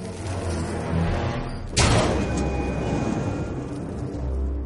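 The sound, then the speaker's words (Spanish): A stone oven's door is shut on a zombie pushed inside, giving a single heavy thud midway through, set against a steady low rumble with no voices. “lo mete en un horno de piedra y cierra la puerta.”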